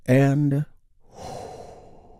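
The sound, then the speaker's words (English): A deep breath taken during a guided relaxation exercise: a short voiced sigh, then a long, soft, airy breath sound, with no words spoken. “We start by taking a big, deep, healing breath with me right now.”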